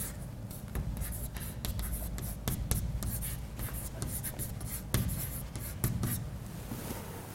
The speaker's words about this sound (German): ich schreibe es mal aus.